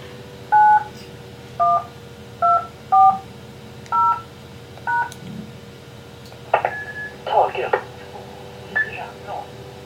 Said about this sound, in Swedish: Då slår jag en DTMF-kod här.